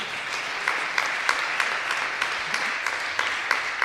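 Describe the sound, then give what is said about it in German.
Audience applause after a song at a live dialect folk music performance: a steady, dense wash of clapping throughout, with a few sharper claps popping out at fairly regular intervals. “Das ist trotzdem Applaus wert.”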